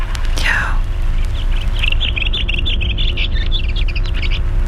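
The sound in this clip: A bird sings a quick run of short, high chirping notes repeated for several seconds after one brief sweeping call, fairly faint over steady background noise.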